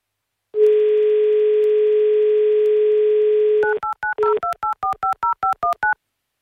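A telephone dial tone holds steady for about three seconds before a quick run of touch-tone keypad beeps as a call is dialed. The tones are loud and clear, each short and evenly spaced, with no voices.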